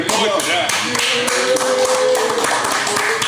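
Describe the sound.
Someone taps the top of a bottle with many quick, fairly steady, loud knocks, while voices are heard over the tapping.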